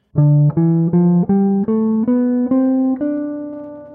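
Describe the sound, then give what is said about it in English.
A D Dorian scale, the C major scale run from D up to D, climbs in eight evenly spaced, clean, sustained notes. Each one steps higher and is heard alone at a firm, steady level. “So essentially, we're starting and ending the C major scale on D. So it sounds like this.”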